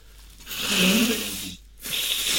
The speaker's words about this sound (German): Ja, warte mal, ich muss mal kurz Nase putzen.